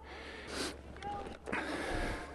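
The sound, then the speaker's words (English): Heavy, breathy panting comes from a person out of breath after climbing high up an ancient theatre near Ephesus. A couple of loud, gasping breaths stand out over a steady, soft hiss. “it's pretty breathtaking. And not just because I'm out of breath.”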